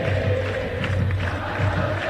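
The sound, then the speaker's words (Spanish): A football crowd sings and roars at the final whistle. A dense, steady wash of many voices holds at an even level throughout, with a sustained chant-like tone running under the noise. “Canta el público. Se ha terminado.”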